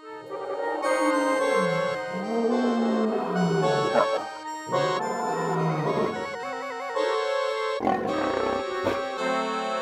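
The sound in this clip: A lion roars in a continuous run of deep, rumbling roars and growls that stays loud throughout with no pauses.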